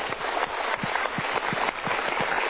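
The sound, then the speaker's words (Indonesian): Audience applause at a motivational seminar, steady sustained clapping from a crowd at moderate volume, with no voices over it. “Kita berikan tepuk tangan dulu.”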